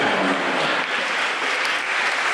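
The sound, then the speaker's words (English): A comedy club audience applauds after a joke in a stand-up set: dense, steady clapping that stays loud and even for the whole stretch, with no voices on top. “Hoping that's an anti-bombing clap.”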